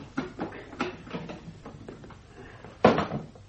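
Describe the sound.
A heavy cellar trapdoor being opened: a series of soft knocks and clunks, then one sharper, louder thud near the end, with no voices.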